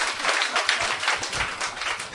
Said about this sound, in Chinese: 我哋俾掌声阿 Clement